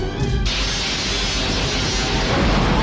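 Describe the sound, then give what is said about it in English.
A phaser blast strikes the starship Enterprise in Star Trek II: The Wrath of Khan: a sudden loud crash that swells into a sustained, heavy roaring rumble. “When you see the phaser blast hit the side of the Enterprise... Yeah. Like, that is still a shocking, like, oh, my God.”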